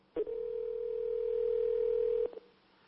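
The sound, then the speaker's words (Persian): A telephone ringback tone sounds as a call is placed from a studio: one steady, mid-pitched beep holds for about two seconds, then cuts off into near silence. “اگر صدای بوق تلفن رو تقویت کنید تو استودیو ممنون میشم.”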